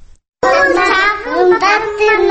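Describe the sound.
Young children sing a song together while hugging their dolls in a kindergarten housed in a former mosque building; their high, bright voices carry sustained pitches loudly and continuously after a brief silent start.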